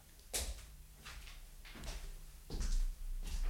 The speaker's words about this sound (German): Herr Branesco kommt gerade zur Tür herein.